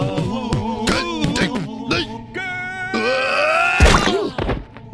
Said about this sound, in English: His head exploded!